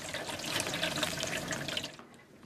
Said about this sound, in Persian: سپیده شیر آب حمام را باز می کند.